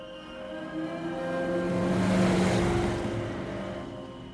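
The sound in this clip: Getaway cars driving off on a summer night: a steady engine drone with a low humming tone swells gradually to a peak and then slowly fades, with no voices.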